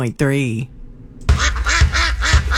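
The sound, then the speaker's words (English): Waterfowl such as geese and grebes call at Bear River Bird Refuge in Box Elder County in spring. A short tonal call opens, then after a quiet pause a loud burst of repeated, nasal quacking calls follows. “That's the sound of nature waking up in Box Elder County. Spring has sprung, and the first visitors are already here. From grebes to geese, Bear River Bird Refuge”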